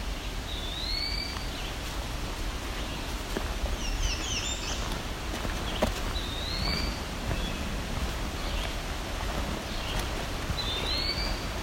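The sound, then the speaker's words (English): A vireo sings short, high, repeated phrases several times, faint above a steady rain-like hiss and rustle that fills the whole recording. “A lot of vireos. You can hear the vireo in the background.”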